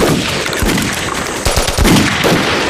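Machine gun fire rattles through a battle scene as troops cover a retreat. Dense, loud, continuous bursts fill the whole stretch, with several heavier thumping shots standing out midway.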